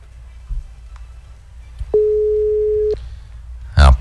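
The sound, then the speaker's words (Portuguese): Ringback tone of a telephone ringing unanswered during a radio station call: a single steady mid-pitched tone lasting about a second, set between faint clicks, with a brief burst of a voice at the end. “Essa aqui não quer ganhar, não. Não atende, já liguei tantas vezes.”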